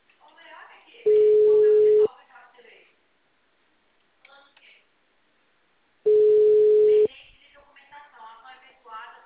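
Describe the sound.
Telephone ringback tone while a call connects: two long, steady, mid-pitched tones, each about a second, about five seconds apart, with voices talking between and after them.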